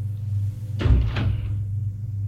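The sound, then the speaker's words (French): A door opening in a bright, modern waiting room: one short burst of creaking and rattling lasting about half a second, set over a steady low hum. “Une porte s'ouvre.”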